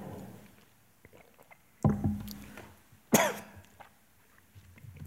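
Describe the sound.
Coughing from someone who has choked on water, two loud, harsh coughs a little over a second apart, each trailing off raggedly, with faint breathy noise around them.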